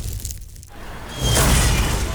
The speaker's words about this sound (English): Smashed roof. Shattered carport. Nothing like a rogue space capsule to bring you back down to Earth